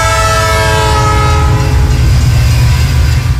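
A train horn blares over the heavy, continuous rumble of a passing train. The sustained horn tone fades after about two seconds while the loud rolling rumble carries on.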